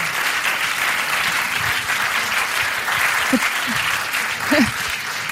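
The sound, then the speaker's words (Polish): Dense, steady applause from an audience at a cultural awards ceremony, honouring a theatre debut; the clapping stays loud and even from start to finish with no pauses. “Proszę o brawa.”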